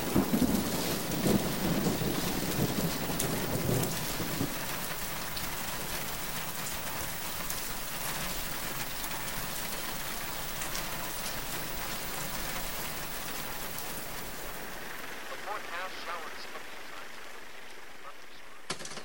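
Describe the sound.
Steady rain falls in a dense, continuous hiss that stays loud and even through most of the stretch, thinning slightly toward the end.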